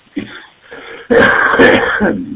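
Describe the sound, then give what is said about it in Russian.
A smoker coughs and clears his throat: a couple of short, rough rasps, then a longer, loud throat clearing that fades at the end. “И вот начинаешь говорить, я с сигаретой, как обычно, ну и так подкашливаю.”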